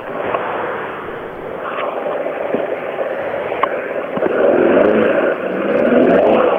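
A Ford MK1 car pulls away with a slipping clutch, its engine giving a steady, strained roar that swells louder in the second half, with a few sharp knocks along the way.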